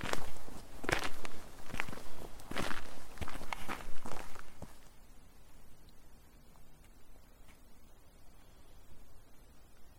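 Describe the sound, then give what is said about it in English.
Footsteps walking towards a cemetery: a steady series of steps, loud and dense for the first half, then fading to faint, scattered steps for the rest. “And we're just kind of walking towards the cemetery.”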